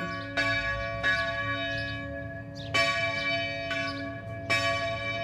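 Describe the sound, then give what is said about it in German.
Church bells ring in the morning in Burgenland with bright, high-pitched strikes, several at irregular intervals. Each leaves a lingering tonal hum over a low background rumble, with no voices. “Seit gestern läuft das Kirchenglockengewinnspiel, das allseits beliebte. Und die heutigen Glocken in der Früh, na, die haben so geklungen.”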